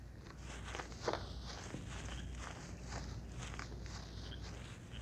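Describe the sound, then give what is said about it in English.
Footsteps of people walking through the woods to check on a shot animal: a continuous rustling, crunching stream of steps with no clear pauses and no talk. “Let's walk over there and make sure. Yeah, let's go.”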